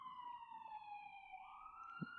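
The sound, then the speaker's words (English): Emergency siren wailing as a single sustained, fairly faint tone that dips slightly in pitch and then climbs again, heard alone without talk. “Excuse the sirens, you know.”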